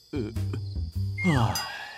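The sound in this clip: Frog croaking in a children's story scene by the water: a few low, buzzy croaks in quick succession, followed by higher gliding tonal sounds layered on top toward the end.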